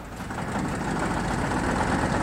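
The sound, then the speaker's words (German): An engine running after being restarted, giving a low, steady rumbling idle with a slight rise in loudness early on, then an even drone with no voices. “Du musst den Motor noch mal anlassen, Franz”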